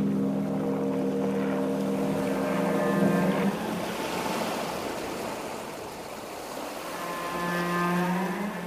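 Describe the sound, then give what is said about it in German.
A ship's engine drones steadily on an emigrant voyage across the sea to America, with layered low harmonic hum under a wash of water noise. It runs continuously and evenly, with no voices. “Die sind dann mit dem Schiff nach Amerika gefahren.”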